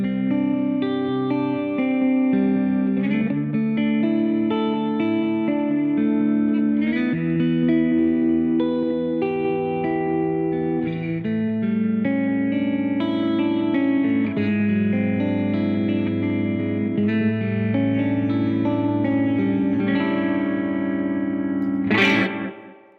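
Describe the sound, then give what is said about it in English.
A 2023 Squier Paranormal Series electric guitar played through distortion and chorus effects, with loud, sustained notes and chords in continuous, loose noodling. It ends with a sharp noisy swipe before cutting off. “It's the one guitar it's been sitting in the living room at night while I watch TV, and I'm just noodling around on it, and it's sure, the sounds that come out of it.”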